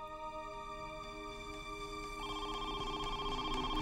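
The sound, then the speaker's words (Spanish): A telephone rings faintly with a steady electronic warble of sustained tones and no voices present. “Unas horas luego de que los agentes se fueran, los Atwood recibieron una llamada.”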